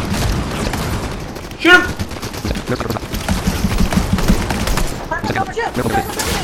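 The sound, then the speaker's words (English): Gunfire in a shooter video game, with rapid bursts and volleys of shots crackling densely throughout. Brief excited voices break through between the bursts. “They're shooting over right now.”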